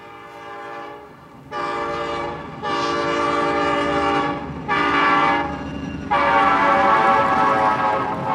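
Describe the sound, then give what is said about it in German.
A morning passenger train bound for Kyiv sounds long, loud, chord-like horn blasts in a series of swelling sections over a steady low rumble of running noise. “Wir nehmen den Morgenzug nach Kiew.”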